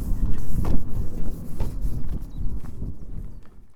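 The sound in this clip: Footsteps cross the top of Woodbury Castle, an Iron Age hill fort from 300 to 500 BC, as a few uneven thuds on the ground over a rumbling wind.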